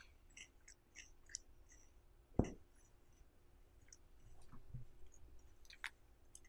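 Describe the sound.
Faint crunching as chocolate-dipped cereal with marshmallows is chewed, with a few sharp crunches and soft clicks and no talk.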